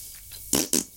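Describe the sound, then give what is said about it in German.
A voice imitates a fart with two short, buzzy, raspy bursts in quick succession, separated by a brief gap and surrounded by near quiet. “Also ein Furzgeräusch.”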